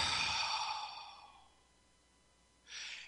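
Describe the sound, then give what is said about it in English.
Deep breath drawn by a single person, a long, loud airy rush that fades over about a second, followed after a pause by a shorter, softer breath. “So take a deep breath.”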